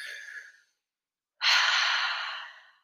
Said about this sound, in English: I want you all to close your eyes. We're going to take one deep breath together, okay?